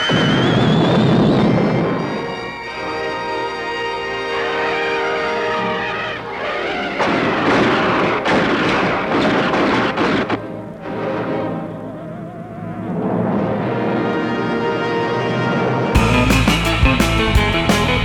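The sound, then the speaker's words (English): Science-fiction space weapons fire cosmic rays in a loud, dense barrage: roaring, crackling blasts with swelling and fading tonal whines that run nearly nonstop, ending in a harsh, buzzing burst. “The fantastic power of the weapons of outer space. Cosmic rays destroying the solarites.”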